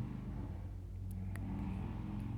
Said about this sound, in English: Can you imagine if you were the kind of person who thought having a car/motorbike that loud was in some way good. I can still hear it.